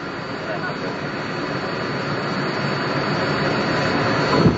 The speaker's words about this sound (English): And down we go. Quicker and quicker, and now any second we'll be feeling the touchdown, the vibration of the landing.